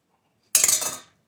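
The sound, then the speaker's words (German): Cooked rice noodles being served onto a plate, heard as a short burst of quick, crisp clinks and clatter of utensils against dishware, lasting about half a second with no talk. “Wobei die Nudeln kommen jetzt auch wirklich gleich in den Teller.”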